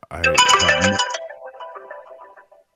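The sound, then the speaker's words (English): A telephone ringtone plays a bright electronic melody of quick tones, loud at the start and then trailing off into quieter, fading notes. “Not your phone ringing, but the other stuff.”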